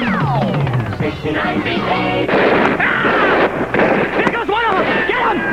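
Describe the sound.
A human voice imitates gunfire and a grenade explosion with a rapid run of harsh bursts, whooshes and warbling tones, loud and continuous throughout.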